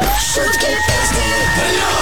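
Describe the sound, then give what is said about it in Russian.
An audience at a comedy and song performance cheers and shouts loudly without pause. A steady, high whistling tone runs above the crowd noise. “Ваши аплодисменты Хабибу, звезде проекта «Шутки, песни плюс» на Юмор ФМ.”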